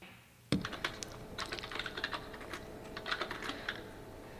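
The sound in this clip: Someone types a letter on a computer keyboard: after a brief quiet, a rapid run of many crisp key clicks, uneven in rhythm, continues steadily to the end.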